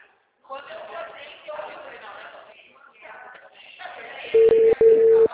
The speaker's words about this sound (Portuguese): Tá chamando, vai.